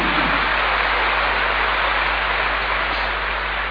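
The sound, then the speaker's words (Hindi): Audience clapping at a gathering welcoming Dadi Gulzar, a dense, steady wash of applause that holds at an even loudness from start to finish without a break. “ताली बजाओ ना,”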